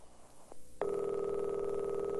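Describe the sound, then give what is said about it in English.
Ringing tone on a telephone line: after a soft hum and a faint click, a loud, steady electronic tone starts abruptly and holds unbroken to the end. “It's ringing now, sir.”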